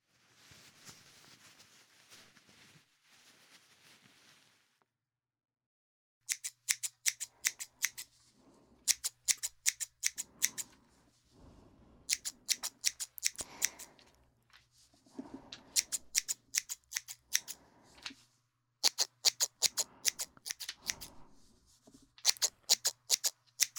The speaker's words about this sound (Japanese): 放課後に後輩の髪を切るっていうのは、青春臭さ